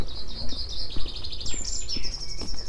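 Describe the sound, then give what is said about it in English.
A chaffinch sings loudly at the end of the day, with a bright run of rapid, high repeated notes and a short, sharp flourish. A low rumble runs underneath. “One rather noisy chaffinch to finish off the day.”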